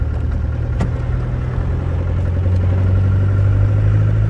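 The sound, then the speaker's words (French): A car engine drones steadily as the vehicle drives through Mediterranean scrubland up toward a plateau. A constant low hum runs under road rumble, with one brief tick near the start. “on roule dans la garrigue. Là, on va sur le plateau, là-haut, Fagueras.”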